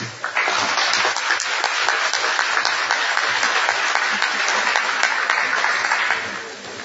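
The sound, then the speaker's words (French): Applause from a meeting confirming an election by acclamation, a dense, even wash of clapping that begins abruptly and holds steady for several seconds before tapering slightly, with no speech. “the Commission may wish to confirm its election by acclamation.”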